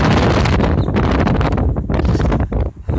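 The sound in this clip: Wind buffets a microphone outdoors, giving loud, rough, roaring gusts that fill the whole clip, with brief dips in strength near the end and no voices.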